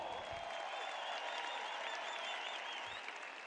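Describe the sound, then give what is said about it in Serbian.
A full arena audience gives dense, sustained applause at a birthday celebration during a tavern-music evening concert. The clapping stays even and continuous throughout, with no voices standing out. “Ja ću vas zamoliti jedan veliki, veliki aplauz. Slavimo rođendan zajedno!”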